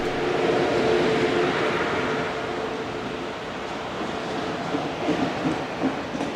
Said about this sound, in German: So, auf jeden Fall der ICE nach Berlin, Planstadt abgefahren, wunderbar.